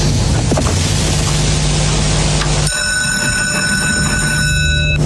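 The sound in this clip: A mechanical hare lure runs along its rail at a greyhound race, giving a loud, steady rumbling drone. Partway through, the sound shifts to a cleaner run with several high, sustained whining tones above a low hum.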